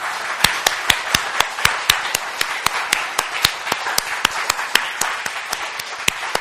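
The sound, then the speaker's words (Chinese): Church audience standing and clapping for their pastors, many hands striking together in steady unison, a crisp, evenly spaced rhythm of loud claps over a soft wash of scattered clapping. “我们其他会众站起来为他们鼓掌，我们谢谢他们的栽培。”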